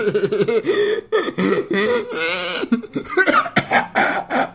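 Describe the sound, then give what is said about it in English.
Coughing and choking from someone with a piece of onion-ring snack caught in the throat, a rapid run of rough, voiced hacking bursts and strained breaths, loud and unbroken, with no talk over it. “Sorry. I got a Funyun caught in my throat.”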